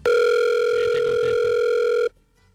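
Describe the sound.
A telephone line tone after the caller has hung up: one steady, unbroken electronic tone with a buzzy edge, holding evenly at full level for about two seconds before cutting off abruptly into near silence.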